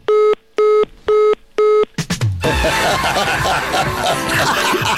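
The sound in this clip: A phone dials with four identical, evenly spaced keypad beeps, then a short falling chirp and a rough, noisy burst as the call fails to go through.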